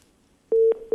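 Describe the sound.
A telephone busy tone sounds after a call is cut off. Steady low beeps repeat in an on-off pattern, loud and alone, after a brief quiet moment.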